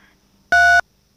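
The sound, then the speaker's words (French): A telephone keypad tone as a caller presses a key on the line: one short, steady dual-pitched beep lasting about a third of a second, loud against near silence. “il ne faut pas appuyer sur votre cadran, hein. Ah. Merci, ça fait beaucoup de bruit.”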